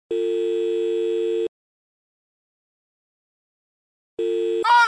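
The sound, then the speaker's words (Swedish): A telephone ringing tone sounds as two steady buzzing tones. The first lasts over a second, then a long silence follows before the second begins and is cut short as a voice briefly speaks at the end. “Ring henne okay.”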